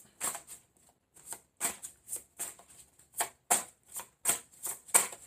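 Tarot cards being shuffled and drawn, a quick, faint series of many crisp papery riffling bursts in an uneven rhythm, heard alone without talk.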